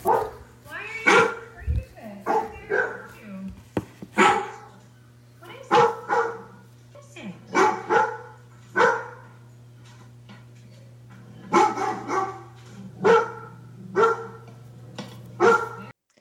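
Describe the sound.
A Labrador dog barks many times, in short runs of loud barks separated by brief pauses, over a steady low hum.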